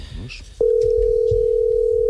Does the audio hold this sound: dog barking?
no